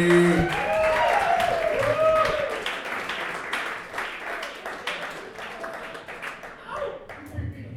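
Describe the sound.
A comedy club audience claps and cheers to welcome a comedian, loud at first and then thinning out as the applause fades, with voices calling out over it.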